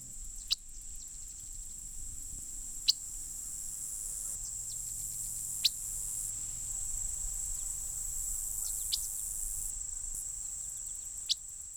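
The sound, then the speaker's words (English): Sparse, sharp bird chip notes in autumn grassland, a few brief ticks scattered across a steady, high insect drone like crickets. “Mostly we hear chip notes like those in the following recording.”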